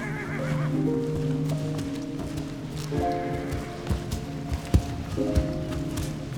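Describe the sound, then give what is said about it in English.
A horse whinnies with a high, wavering harmonic neigh, followed by further lower calls and a few sharp knocks like hooves. “You're riding the horse with the mohawk.”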